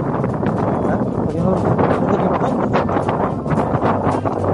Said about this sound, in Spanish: Bueno, el audio evidencia el fuerte viento que hay hasta ahora.